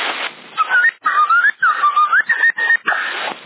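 Someone whistling over a CB radio channel: a thin, band-limited melody of several short, gliding phrases broken by brief gaps, loud and tinny, with radio hiss at the start and end.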